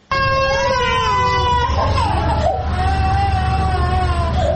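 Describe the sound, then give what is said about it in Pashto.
Infants hospitalized with diarrhea cry in a provincial hospital in Tarinkot. Their loud, sustained, wavering wails overlap and continue throughout. “دا جړاوی د هغه ماشومانو دي چې اوس مهال تازه د نسناستي او یا هم د ایسحال په ناروغي اخته دي چې دا مهال د ترینکوټ په ولایتي روغتون کې بستر دي”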